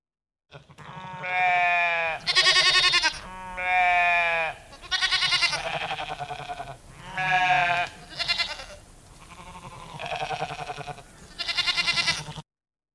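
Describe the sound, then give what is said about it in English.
Sheep bleating repeatedly, many loud, wavering, nasal cries in quick succession with short gaps between them, some slightly lower and shorter than others, with no talk over them. “Sheep.”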